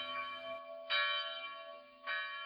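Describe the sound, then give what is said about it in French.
Church bells ringing the call to vespers in a small Algerian town, steady sustained metallic tones with rich harmonics and two fresh strikes swelling in the middle and near the end, alone with no voices. “Voilà les cloches parties, nous en avons pour longtemps.”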